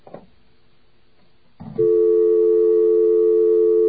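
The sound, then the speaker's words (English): A telephone dial tone on a touch-tone line. A brief clack comes first, then quiet, then a second clatter, and a steady, loud, unbroken tone starts and holds to the end. “you get a dial tone, right? And you have your telephone here, okay?”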